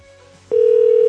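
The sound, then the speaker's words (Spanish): Telephone tone as a call is dialled: a soft, quiet hum gives way halfway through to a loud, steady single-pitch tone that holds to the end. “Pero a ver, vamos a marcarle otra vez.”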